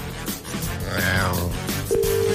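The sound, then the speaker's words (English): Telephone ringing tone during a call placed from a radio phone-in, a steady electronic tone that comes in plainly near the end, after a briefer higher tone earlier, over other low background sound. “It's ringing. It's ringing.”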